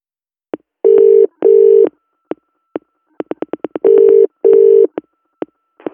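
Telephone dialing tones ring out as an office number is dialed: a series of short, sharp beeps mixed with four longer steady tones, set in two pairs, with no talking.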